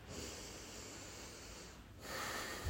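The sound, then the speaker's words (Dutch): A person breathes slowly in and out through the nose. A long, faint, airy breath is followed after a brief pause by a slightly stronger, snort-like nasal breath. “Adem 2 keer in via je neus. In en uit.”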